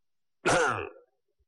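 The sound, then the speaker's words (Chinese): A single loud, throaty cough, a voice imitating someone coughing in a temple hall, sharp at the start and trailing off quickly, then silence. “那大殿里边有人咳嗽了一声”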